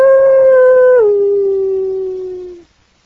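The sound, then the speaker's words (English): A human voice imitates a coyote howling: one long, sustained howl holds a steady pitch, drops abruptly partway through, then continues lower and fades out after about two and a half seconds. “He said, that wasn't nothing but a coyote.”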